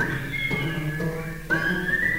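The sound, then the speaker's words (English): Audience whistling along with a performer at a live show: steady, bright whistled tones held over a continuous backing, shifting to a new note partway through. “You know, there's some good whistling going on tonight.”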